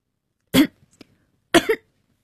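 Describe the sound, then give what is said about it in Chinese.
A man's choking cough: two loud, harsh bursts about a second apart, the second splitting into two quick pulses, with faint small sounds in the gap and silence around them. “呛咳了一声”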